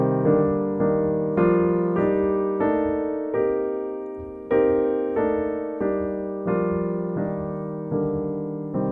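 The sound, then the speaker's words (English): Block chords of a C minor scale in locked-hand voicings, played from root to seventh. Each chord is struck and then rings and decays, forming a steady, even sequence of many chords with no talking. “We have now just played the entire C minor sound, the entire C minor scale from the root to the seventh, using locked hand voicings.”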